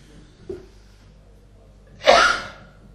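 A single sneeze bursts out sharply and loudly after a quiet stretch, then fades quickly with a breathy tail.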